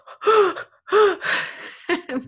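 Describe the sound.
A voice imitates sharp, startled gasping breaths taken through a snorkel tube with the face in the water: several quick voiced inhalations in uneven bursts, the last ones shorter and choppier.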